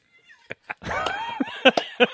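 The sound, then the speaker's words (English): A cat yowls as it runs across a lit fart flame and catches fire: a drawn-out, wavering, high yowl, with a few short sharp knocks before and after it. “then the cat runs across the flame and catches fire.”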